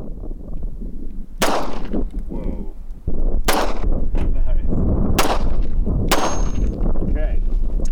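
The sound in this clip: Four sharp gunshots fired at a coffee cup target, each a loud crack spaced a second or two apart over a steady background rumble.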